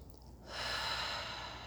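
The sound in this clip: A single deep breath follows a brief moment of quiet. It comes as a soft, airy rush that swells and then holds steady and faint until the end.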